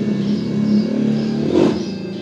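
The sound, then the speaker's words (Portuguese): A motorcycle passes by with a continuous engine drone that swells briefly past the midpoint and then eases off slightly. “Olha a moto passando.”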